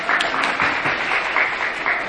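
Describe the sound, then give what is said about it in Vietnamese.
Audience applause at a gathering where a monk is talking with families. Clapping forms a dense, lively patter with brief peaks, holding steady and loud for about two seconds. “Đó, vỗ tay cho quý vị.”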